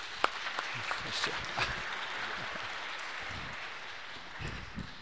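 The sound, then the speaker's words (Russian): Church audience applause welcoming a pastor: dense, steady clapping from many hands that keeps up evenly for about five seconds, with a few sharper individual claps standing out. “Давайте, когда хлопаешь, то тогда как-то теплее становится.”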